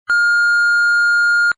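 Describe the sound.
A single steady electronic beep plays as the cue tone for leaving a message. It is a loud, pure, unwavering pitch that starts and stops cleanly after about one and a half seconds.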